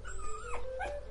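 Dog whimpering in a few thin, high whines with wavering, sliding pitch, soft over a low steady background rumble.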